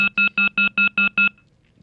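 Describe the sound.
An earpiece gives seven short electronic beeps at one steady high pitch, evenly spaced in a quick regular rhythm, then falls silent.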